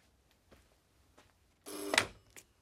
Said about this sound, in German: Lassen Sie das Telefon läuten